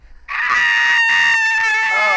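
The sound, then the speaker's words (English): A shrill, screeching shriek rings out loud and piercing, held as one sustained high-pitched cry for about two seconds with no pause. “that fucking shriek. Holy shit, that made my ear hurt. That was a good, like, screech.”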